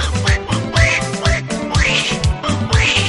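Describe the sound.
A voice imitating a cartoon duck gives a string of raspy, nasal quacks over a rhythmic music backing with a steady low beat.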